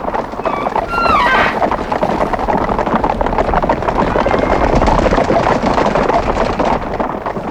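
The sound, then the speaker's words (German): A large herd of guanacos stampedes in a loud, continuous rumble of many pounding hooves. The sound is dense and steady throughout, with a brief high-pitched call near the start. “Hört ihr das? Es hört sich an, als ob eine große Herde vor irgendetwas flüchtet.”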